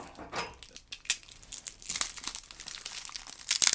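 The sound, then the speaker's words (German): Crinkling plastic wrapper of a Kinderriegel chocolate bar being opened: a run of irregular crisp crackles and rustles that grows louder toward the end. “Ich muss jetzt mal den Kinderriegel nehmen. Ja, dann esse ich auch einen Kinderriegel.”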